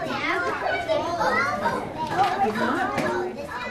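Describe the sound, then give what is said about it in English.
A noisy pre-K classroom at College Heights Early Learning Center in Decatur: many children's voices chatter, call out and overlap continuously at a loud, busy level. “If most pre-K classes are like the ones at College Heights Early Learning Center in Decatur, they're noisy.”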